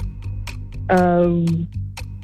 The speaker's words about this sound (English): Timer starts at the end of this first question.